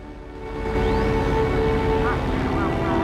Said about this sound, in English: The bombers fly in formation through the clouds.